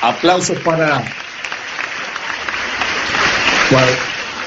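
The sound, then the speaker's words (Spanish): Crowd applause at a gathering in Uruguay, a steady wash of clapping that swells slightly toward the end. A voice calls out over it at the start and again near the close. “aplauso para todos, aplauso para los de Montevideo, para los de la capital,”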